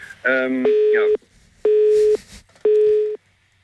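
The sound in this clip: Telephone tones sound after a phone is accidentally pressed: three steady, mid-pitched beeps of equal length, evenly spaced with short silences, following a brief burst of a busier tone at the start.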